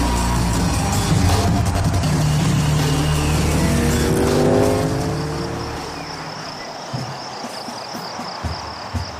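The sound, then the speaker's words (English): Motorcycles race past on a road beside woods with a loud, sustained engine roar. A falling whine fades after a few seconds into quieter background noise with faint high chirring. “Cycles race up by the Alpha unit, who happen to be near the road, but out of sight in the woods.”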